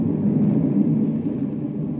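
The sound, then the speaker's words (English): A low, steady rumbling drone of a space cruiser racing through space toward Saturn, loud and unbroken for the full two seconds, with no voices. “far out in space, avoiding the regular space lanes, a space cruiser races toward Saturn.”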